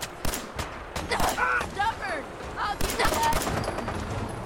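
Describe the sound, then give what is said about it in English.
Gunfire in a video game: many sharp, cracking shots follow in quick irregular bursts, close together and fairly loud throughout. “Oh, I shot that guy in the butt.”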